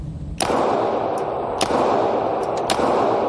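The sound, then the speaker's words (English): A 9mm pistol fired without a suppressor gives a sharp, loud crack that runs into a sustained, dense rush of noise, with several smaller sharp clicks scattered through it. “To demonstrate the noise reduction, Williams fired rounds from several guns with and without a suppressor. First up, a 9mm without the suppressor.”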